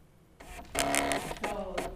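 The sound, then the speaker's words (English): A voting machine whirs as it prints a long receipt for early voting in Illinois. After a quiet start, a motorized buzz with a pitched mechanical whine runs in short bursts. “That is the sound of election integrity. Well, actually, it's just a long receipt printed out by a voting machine.”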